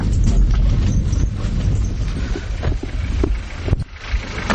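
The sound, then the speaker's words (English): Low wind blowing on a road in Afghanistan on the way to Abdul Haq's grave, a steady loud rumble of wind buffeting the microphone with broad rushing noise and no voices. “Here, a little low wind blowing.”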